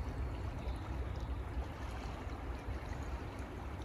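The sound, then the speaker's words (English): Water flowing steadily, a soft continuous rushing wash with no distinct events, faint and unchanging throughout. “The sound of water outside of you”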